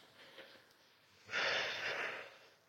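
Breathing in and out during a calm morning breathing exercise: a faint airy breath, then a louder, sustained breathy rush of about a second, with nothing else around it.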